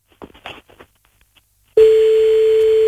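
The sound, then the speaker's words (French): A telephone line sounds on a call-back after a few brief words: a single continuous mid-pitched tone starts abruptly and holds steady to the end. “Bon, attends, on le rappelle, mais il va pas décrocher, hein, mais... On lui laisse un message.”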